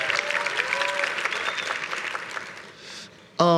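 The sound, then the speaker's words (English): Church audience applauding during a service, steady clapping running under a speaking voice, then thinning out before a louder voice cuts back in at the end. “Let's give it up for Stephen Ivy as well.”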